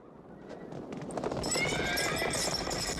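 Horses galloping in a race of more than twenty riders across open steppe, a rapid dense clatter of hoofbeats building in loudness and holding steady, with a whinny near the start.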